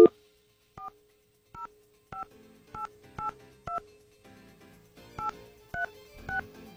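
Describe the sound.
Telephone keypad dialing tones: nine crisp two-tone beeps, a steady run of six, a short pause, then three more, over a faint low hum.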